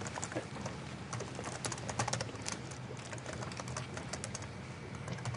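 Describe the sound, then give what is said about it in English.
A password is typed on a computer keyboard: a steady run of many quick, light key clicks at a fairly even pace, faint and without any voice. “Okay, did I type that?”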